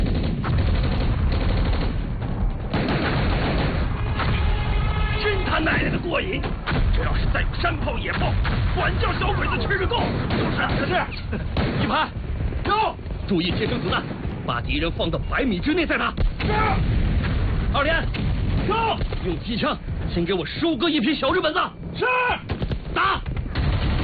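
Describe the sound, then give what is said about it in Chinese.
Mortar and gunfire in a battle defending an airfield against advancing troops: many sharp blasts and crackling shots run dense and loud throughout, with voices heard amid the fighting. “哎，弟兄们快看，小鬼子上来了，该咱们迫击炮炮兵了。迫击炮，准备，打！”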